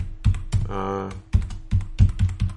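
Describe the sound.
Keys clatter on a computer keyboard in quick, irregular bursts of loud keystrokes, with a short stretch of voice between them.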